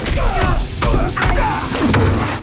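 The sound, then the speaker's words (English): Repeated kicks thud onto a man lying on wooden boards during a fight, a few heavy, dull impacts over a loud, continuous rumbling background. “Scorpion trips Johnny, who falls back onto the wooden boards. Kick after kick rains down on Johnny.”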